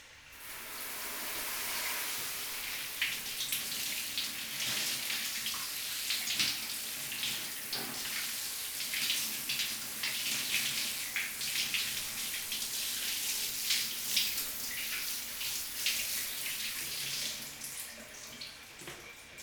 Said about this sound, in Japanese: それじゃあまず頭を洗ってあげるわね。